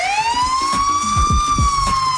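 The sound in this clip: Police car siren sounding behind a driver being pulled over for speeding: a loud, continuous wailing tone that climbs slowly and then holds steady, with a low rumble underneath.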